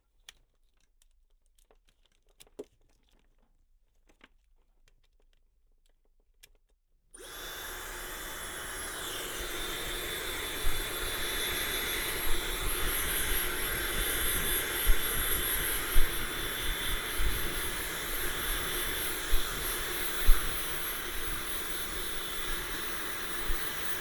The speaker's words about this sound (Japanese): あ、髪？乾かす？やってあげる。